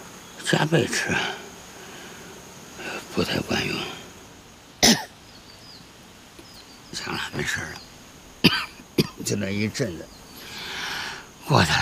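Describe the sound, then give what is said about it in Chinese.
Repeated harsh coughing from someone who has caught a chill after going out in strong wind, coming in several separate bursts over a steady background hiss, with brief talk between some coughs. “又咳了，受寒了”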